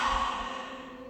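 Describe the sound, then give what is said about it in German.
A deep, slow exhale during a guided meditation breathing exercise: a steady, breathy rush of air that gradually softens over about a second. “Atme tief ein und nochmal erstmal so aus.”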